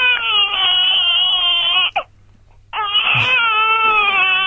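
A baby boy crying loudly: two long, high, wavering wails separated by a short catching breath, the second wail breaking with a strained edge.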